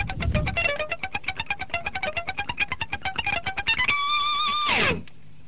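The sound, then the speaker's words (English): A clean electric guitar lick with the strings palm-muted runs as a rapid string of short, clipped plucked notes at full speed, then ends on a longer held note that bends and fades. “Basically, what I'm doing is muting the strings with the palm of my right hand.”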